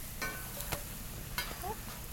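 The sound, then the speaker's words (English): Food frying in a little coconut oil: a steady, sizzling hiss with a few sharper pops and crackles breaking through. “frying it in a little coconut oil. And we'll just let it get nice and crispy on the outsides”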